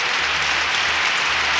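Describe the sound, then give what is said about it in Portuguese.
Audience applause for a singer's debut on a roots-music show: a dense, even wash of clapping fills the whole clip without a break. “Então, mais palmas.”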